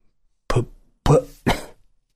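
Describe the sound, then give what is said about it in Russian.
A man coughing three times, short and harsh, each cough a sharp burst with brief silence between, no other talk. “Он закашлялся.”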